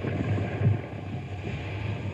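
Water and wind wash around a barge carrying a trailer as it is steered onto a riverbank, with wind pushing against the trailer. The sound is a steady, low, rumbling hiss with small surges and no distinct impact.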